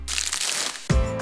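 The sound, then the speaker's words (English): Crinkling and crackling of a Lindt Lindor chocolate truffle's wrapper being unwrapped, a brief, soft rustle that is heard alone. “The unwrapping of a Lindt Lindor truffle.”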